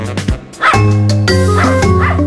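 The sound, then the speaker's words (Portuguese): A ten-year-old Springer Spaniel farm dog from Devon gives a few short, sharp yips, then a long, sustained whining, whimpering tone, loud and without any talk. “Jess é da raça Spring Spaniel.”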